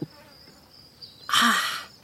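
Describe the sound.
Bees buzz beside a flower bed in a garden. A thin, high, faint whine drifts along, then a louder, rougher buzzing burst swells briefly near the end and dies away.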